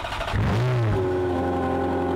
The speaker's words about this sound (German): Ein Ferrari 403 Scuderia limitierte Auflage.